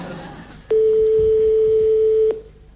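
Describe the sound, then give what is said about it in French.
Ringback tone after dialling a telephone number: one long, steady, mid-pitched beep lasting about a second and a half, sounding alone and cutting off cleanly. “Nous composons le numéro de téléphone de Jocelyne. Attention. Ça sonne. Ça ressonne.”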